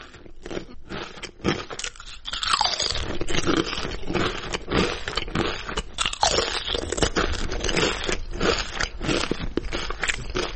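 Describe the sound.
Crunching of potato chips being bitten and chewed: a dense, steady run of many crisp, dry crackles and snaps, fairly loud throughout, with no voices.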